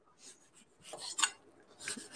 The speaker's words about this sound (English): So let's do an orange here. Segments are to get those individual pieces out of there. So start by cutting off the stem and the flower end